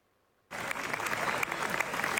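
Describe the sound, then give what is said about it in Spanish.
Long standing ovation at the Venice Film Festival for the film Bunker: after half a second of near silence, dense applause bursts in abruptly and holds as a sustained, fairly loud roar of clapping. “Y Javier Bardem y Penélope Cruz recibieron anoche una larguísima ovación, la más larga que hemos visto hasta el momento en el Festival de Venecia.”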